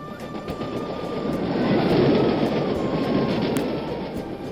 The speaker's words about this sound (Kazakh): Пойыз тоқтаусыз 17 күн бой жүріп келеді.